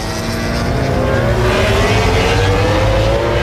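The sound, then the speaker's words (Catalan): MotoGP racing motorcycles roar loudly and continuously at the Dutch Grand Prix, with 11,500 spectators present. The engines make a dense, high-revving drone whose pitch climbs steadily. “Aquest és el so de MotoGP, el so del Gran Premi dels Països Baixos.”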